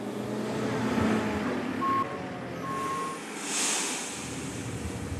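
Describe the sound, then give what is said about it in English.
Engine rumble of a lorry arriving to be loaded with harvested grain, with two steady reversing beeps in the middle over a constant wind-like noise. “followed shortly afterwards by by the lorry I'd ordered. That is a smart lorry.”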